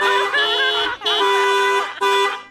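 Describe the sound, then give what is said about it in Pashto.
A car horn honks three times in loud, sustained, bright blasts, each lasting close to a second, with only brief breaks between them. “په دې خوشحالۍ کې به یو بل هارن درته ووم.”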